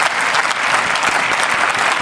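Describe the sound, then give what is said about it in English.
Applause sound effect played from a soundboard: dense, loud clapping with crowd noise that holds steady for about two seconds without a break. “Can I get some applause for me first?”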